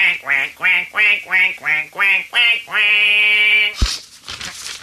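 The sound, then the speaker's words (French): A man imitates a duck quacking: seven short, nasal, evenly spaced quacks, then one long drawn-out quack that ends in a brief noisy burst. “faites rentrer le premier canard s'il vous plaît”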